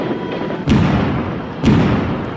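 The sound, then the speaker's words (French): Grenade blasts in a film's war scene on an airport tarmac in Marseille in 1994: two sudden deep thuds about a second apart, each standing out over a constant dense rumbling noise. “Ce sont les tirs de grenades qui déstabilisent à la fois par le souffle et par l'effet sonore.”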